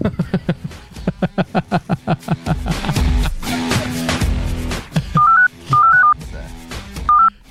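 Telephone dialing tones for a phone call: a run of short rhythmic pulses is followed by three loud, steady dual-tone beeps near the end.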